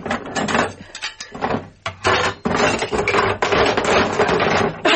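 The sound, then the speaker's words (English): A wooden kitchen drawer under the sink is opened and emptied, giving a dense, continuous clatter and rummaging of loose items, loud throughout with brief dips. “Hadn't you better empty out the drawer to make sure?”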